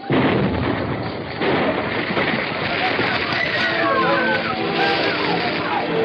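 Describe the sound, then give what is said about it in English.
Sustained roaring blast noise from an explosion and fire at a munitions factory: a dense, loud, unbroken rumble that fills the whole clip with little change in level, with what may be indistinct voices mixed in. “The explosion was followed by fire at the munitions factory,”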